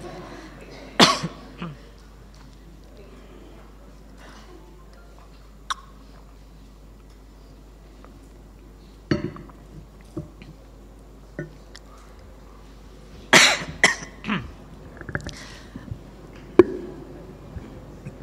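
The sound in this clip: Coughing during a pause in a philosophy lecture: several sharp coughs scattered across long quiet stretches, with a denser cluster near the end.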